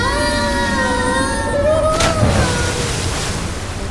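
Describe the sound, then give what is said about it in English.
Wet, ocean-like sloshing churns inside a stomach, like choppy sea water. A steady rushing wash is crossed by a few long, drawn-out creaking tones. “Why does it sound like the coffin landed in the middle of a choppy ocean?”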